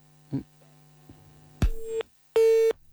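Busy tone on a dropped telephone line: two loud, steady electronic beeps with a flat pitch, each lasting under half a second, following a few faint low thumps. No voices are heard.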